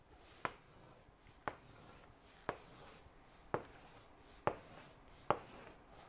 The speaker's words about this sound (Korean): 얼른 기본표 간단하게 한번 그려볼게요.